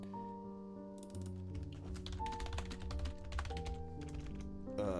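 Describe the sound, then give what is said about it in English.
Quiet, rapid typing on a non-mechanical computer keyboard: many soft, uneven clicks over sustained tones in the background. “And I type these manually. Clickety-clack. Thank God I don't have a mechanical keyboard.”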